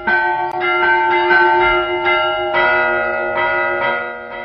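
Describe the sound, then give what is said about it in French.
A church bell rung by a bell-ringer, resonant strikes coming in irregular succession, each with long ringing overtones that overlap and sustain between hits. “Et voilà le sonneur heureux qui prend son chorus comme un batteur de jazz. Un sonneur aussi indispensable à ses concitoyens que les harmonies triomphales de sa cloche.”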